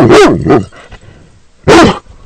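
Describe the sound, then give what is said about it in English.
A female dog barks on command: two quick, loud barks, a short pause, then a single bark, with no talk over them. “Now, I want you to bark one more time.”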